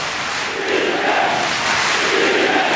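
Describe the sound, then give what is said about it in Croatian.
Norwegian football fans of Viking chant together at a football match, a loud, steady wall of massed voices that holds at an even level for the whole stretch. “čujete norveške navijače.”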